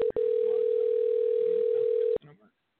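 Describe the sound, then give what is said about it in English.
A steady telephone dial tone, one held mid-pitched tone with a brief break at the start, heard while placing a call to a guest. It cuts off abruptly, leaving a couple of short faint sounds. “So I'm going to attempt to connect Heron now via dialing him.”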